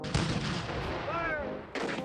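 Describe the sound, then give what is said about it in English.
Cannon fire from the Confederate attack on Fort Sumter in 1861: two heavy booming blasts, one just after the start and one near the end, with a rumbling tail between them. “Fire! The Confederates fire on Fort Sumter on April 12th and 13th of 1861.”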